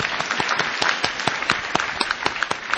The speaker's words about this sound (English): again, no applause necessary.